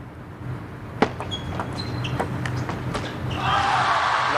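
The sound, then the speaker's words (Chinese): A table tennis ball bounces on the table before a serve in a professional match. Several light, sharp taps are spaced apart, and one is louder than the rest. A broad wash of noise swells near the end. “雨果先来发球，”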